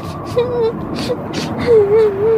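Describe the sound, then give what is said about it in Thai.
A little bear cub crying, voiced by a person imitating it: wavering, whimpering sobs with rising and falling pitch, broken by short breathy gasps, moderately loud. “หมีน้อยโอ้ร้องไห้ทำไมจ๊ะ”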